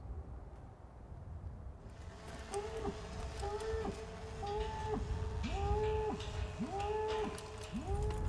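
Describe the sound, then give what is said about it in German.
Cattle low again and again as cowboys drive the herd through a forest to a pen in a clearing. Many drawn-out, arching moos follow one another over a steady background of hoof and herd noise, with no voices. “Die Cowboys treiben die Rinder zu einem Pferch auf einer Lichtung.”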